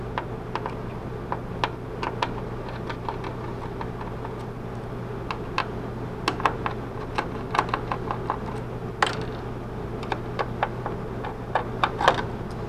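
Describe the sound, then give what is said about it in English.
Small ticks and clicks from a screwdriver removing the four screws that hold a computer processor card, scattered irregularly and fairly faint over a steady low hum. “The processor card has four screws in it. You need to remove those four screws.”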